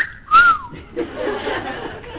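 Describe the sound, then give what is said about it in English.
A short human whistle aimed at a woman passing by under a mango tree: a single loud, clear tone rising then falling over about a third of a second, followed by a murmur of laughter. “I gathered all my strength, and I gave her a whistle.”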